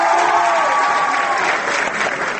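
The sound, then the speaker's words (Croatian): High school students applaud to welcome a European Union representative. The clapping is dense, steady and loud, and it fades slightly toward the end. “Aplauz kojim su baš lepo srednjoškolci iz Beograda, Leskovca, Niša, Lebana i Rače dočekali predstavnika Evropske unije u Beogradu Vensana Dežera.”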